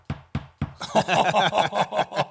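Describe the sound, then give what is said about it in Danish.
Someone knocks: three sharp, evenly spaced raps come first, then a longer stretch of rhythmic, pulsing vocal sound follows. “nu tror der er nogen, der banker på”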